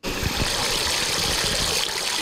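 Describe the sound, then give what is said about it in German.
Small water fountain jets rising from the ground at the Elisenbrunnen in Aachen on a warm summer day splash in a steady, continuous hiss and rush of water with no pauses. “Am Aachener Elisenbrunnen springen einige Kinder durch die kleinen Wasserfontänen, die aus dem Boden kommen”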